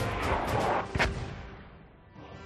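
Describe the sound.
Mortar fire in a video game: a single sharp, booming blast lands near the middle over a steady low rumble that fades a little afterward.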